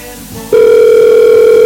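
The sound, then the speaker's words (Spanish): A telephone tone sounds: a steady, loud electronic hum begins after about half a second of low background noise and holds unbroken to the end. “¿Están llamando?”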